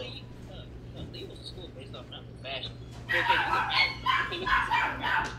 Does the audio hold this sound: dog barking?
yes

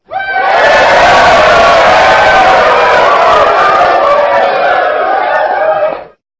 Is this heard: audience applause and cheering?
yes

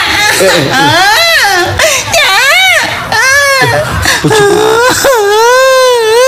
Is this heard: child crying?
yes

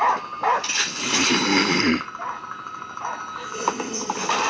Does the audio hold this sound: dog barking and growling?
yes

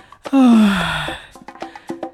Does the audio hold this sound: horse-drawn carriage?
no

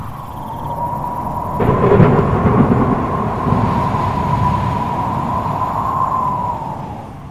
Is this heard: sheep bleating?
no

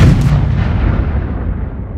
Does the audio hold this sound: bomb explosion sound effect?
yes

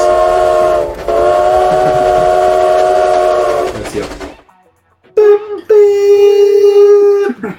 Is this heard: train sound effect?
yes

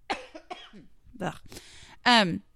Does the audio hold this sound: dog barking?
no

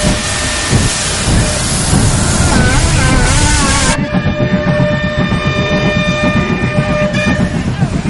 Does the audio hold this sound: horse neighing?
no

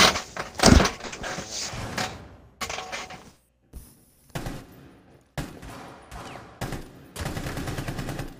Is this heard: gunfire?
yes

